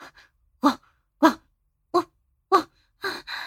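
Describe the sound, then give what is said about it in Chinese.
A woman's voice imitates a dog barking, giving several short, loud, woof-like bursts at a fairly even pace, each a sharp yelp separated by silence, with no other talking. “妈妈再给你狗叫两声。”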